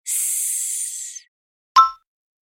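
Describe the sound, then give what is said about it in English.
A voice hisses a long, steady "s" like a snake for about a second, bright and airy, then falls silent before one short, clipped vocal burst. “make sure your tongue is at the top of your mouth behind your teeth, like a snake. Say,”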